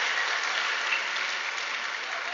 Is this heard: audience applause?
yes